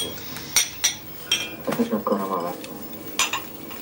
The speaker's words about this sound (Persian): منم ظرفا رو میشورم.